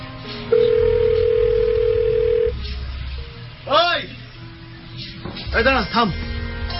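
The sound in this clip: Ringback tone on an outgoing mobile phone call: a single steady, buzzing tone of about two seconds over a low background hum.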